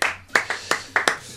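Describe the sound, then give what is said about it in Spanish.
An applause sound effect comes out thin, made of a few sparse, separate hand claps. The slow, uneven claps are moderately loud, each with a crisp attack and a short decay. “Buscá si no un efecto de aplausos que Donald parezca Trump, que hay más gente aplaudiendo.”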